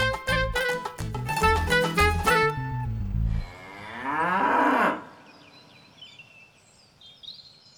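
A water buffalo moos in one long, loud, low bellow with a wavering, quavering tone that ends abruptly, then fades to quiet background sound.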